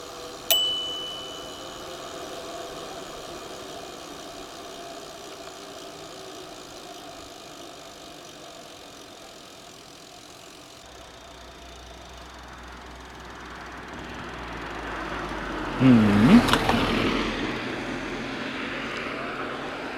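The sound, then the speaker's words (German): Car engine and tyre rumble as a car drives through a roundabout: a steady, low drone that dips mid-way, then swells louder toward the end before easing off. “Ich fahre dann einmal durch den Kreisel.”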